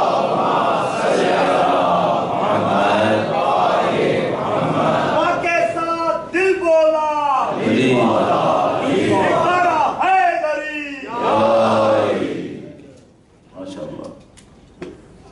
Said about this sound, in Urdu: ایک دفعہ اپنے ذہنوں کو اور اپنے قلوب کو منور کرنے کے لیے درود بھیجے محمد والے محمد.